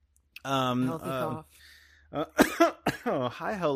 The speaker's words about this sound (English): My first vape. oh God, that's a good one. That's a healthy cough.